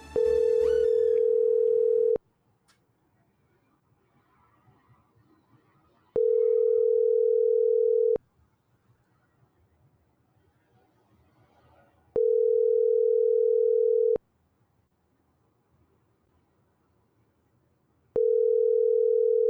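A steady telephone line tone comes in four evenly spaced bursts of about two seconds each, with roughly four seconds of near silence between them. The final burst is cut off. No voices are heard.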